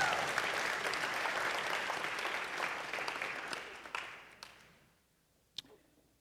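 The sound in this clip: Audience applause at a church service after a scripture reading: dense, steady clapping for about four seconds, then thinning and tapering off, with one sharp isolated clap near the end.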